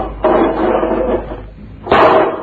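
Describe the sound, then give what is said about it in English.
A door slammed shut hard: two loud, sharp bangs about one and a half seconds apart, each with a short rattling decay, and no voices. “Gee, do you have to slam that thing like that?”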